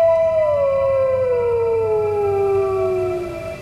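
A wolf howling: one long, loud, sustained tone with rich overtones that slowly slides downward in pitch and fades slightly at the end, over a low steady hum.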